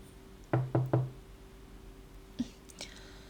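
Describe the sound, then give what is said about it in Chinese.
Three sharp knocks on a door in quick succession, low and resonant over a steady faint hum, followed later by a couple of softer, brief sounds. “你在家啊？怎么敲了这么久才开门呢？”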